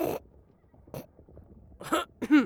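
Faint throat-clearing coughs: a few short, rough bursts, separated by quiet gaps, with the last two coming close together.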